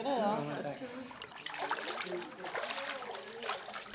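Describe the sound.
Water splashes and trickles as a reporter climbs out of a swimming pool at an aqua aerobics session, with a voice speaking briefly at the start before a steady run of sloshing and dripping.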